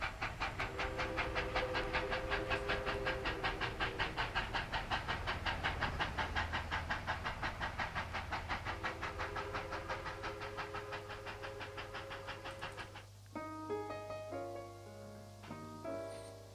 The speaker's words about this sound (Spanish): Ya estamos por aquí, en este vagón acondicionado para pasar terapias.